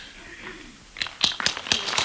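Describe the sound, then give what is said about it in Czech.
Applause welcoming a savings-bank director to the stage at an award ceremony starts after a quiet second, a few sharp, uneven claps that grow more frequent. “Přivítejte ji potleskem, děkujeme.”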